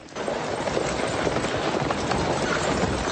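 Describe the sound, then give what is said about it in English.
Hooves clip-clop steadily as a horse-drawn stagecoach arrives in a Western film scene. The clatter is dense, continuous and fairly loud throughout, with no clear pauses. “And here's the stagecoach arriving, and they're running to help the stage.”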